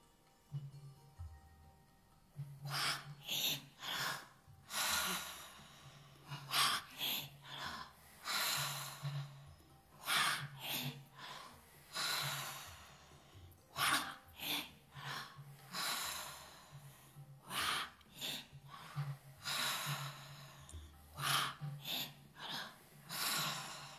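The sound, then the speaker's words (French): Slow guided breathing in and out, a series of breathy rushes of air rising and falling in an uneven rhythm, with a faint steady low hum beneath. “Et inspirez. Et expirez. Et on recommence.”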